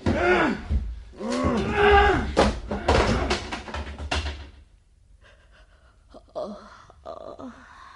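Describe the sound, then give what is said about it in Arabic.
A door being smashed open by two men: loud, heavy crashing and slamming impacts mixed with strained vocal cries and gasps, then the din drops away to a quieter stretch with faint, brief sounds. “وتحطم الباب”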